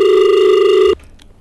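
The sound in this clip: A telephone ringing for an incoming call, a single loud, steady electronic tone lasting just under a second before it cuts off abruptly.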